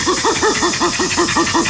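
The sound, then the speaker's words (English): A chimpanzee gives a pant call in an affiliative context, typically during an approach: ten quick, evenly spaced breathy hoots, each rising and falling in pitch, in a steady rhythm over a hissy background. “And a pant is given in an affiliative context, usually during an approach, and sounds a bit like this.”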